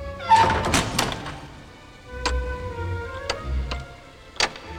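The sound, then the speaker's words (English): A trap door on a puppy's enclosure is shut, giving a cluster of knocking thuds followed by a few separate sharp clunks and taps spaced out over the following seconds. “He puts the pup in and closes the trap door.”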